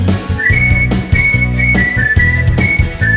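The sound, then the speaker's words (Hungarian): Someone whistling along to music: short, bright whistled notes repeat in a simple tune over a loud, steady beat and bass line. “Én tudok zenére fütyülni”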